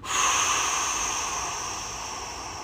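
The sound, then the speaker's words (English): A long, slow exhale after a held breath: a soft, airy rush that starts strong and gradually fades over nearly three seconds, with no talking. “Hold it, and I want you to exhale as long as you can.”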